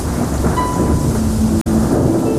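Heavy rain pours down in a downpour outside a village church, heavy drops becoming a dense, steady hiss. The loud wash stays constant throughout, broken only by one brief dropout near the end.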